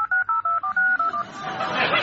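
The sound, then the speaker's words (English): Telephone keypad tones sound as someone dials the number of a stolen mobile phone during a police search in Romania: several quick, steady beeps in a brisk run, then a broad noisy hiss. “They dialed the number of the missing phone”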